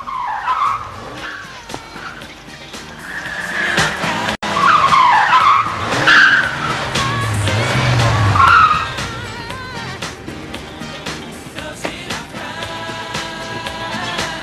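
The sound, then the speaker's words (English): Tires screech as a red Ferrari skids to a stop in a film scene. Loud squealing bursts fill the middle with engine rumble beneath, then a quieter motor sound carries on afterward. “As Richard Pryor turns up in a brand new red Ferrari.”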